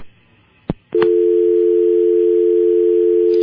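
Telephone dial tone after a caller's line has dropped: a couple of sharp clicks, then a steady, continuous mid-pitched tone that holds unbroken to the end.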